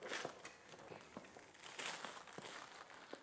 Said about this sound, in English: See what present I got? Do you want to open it for me? Oh, other end. Keep going.